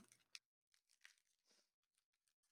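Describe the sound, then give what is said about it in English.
A pack of baseball cards is torn open with faint crinkling and tearing of the wrapper, heard as a few soft, irregular rustles and rips. “There's some good package opening on the mic there.”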